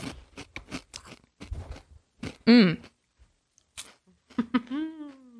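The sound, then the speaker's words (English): Crunching of chips being chewed, a run of sharp, crackly bites and chews broken by short vocal sounds. “This tastes like, oh my God, this is good too. Not a bugle because it doesn't have a hole.”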